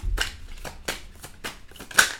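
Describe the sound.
Tarot cards are drawn from a deck in a series of several crisp, papery swishes and snaps, short and evenly spaced, with one sharper flick near the end and no talking.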